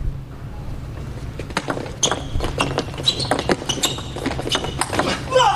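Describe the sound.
Professional table tennis match rally after a serve: light, sharp ball clicks begin in a quick irregular series midway, under commentators talking.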